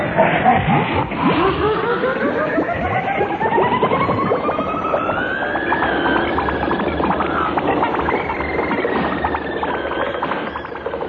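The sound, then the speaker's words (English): Comic sound effect of a wall being driven at speed like a vehicle: a loud, continuous, chaotic roar with whining tones that climb in pitch, holding steady for about eleven seconds. “The sound you are hearing is Neddy and Eccles driving a wall at speed.”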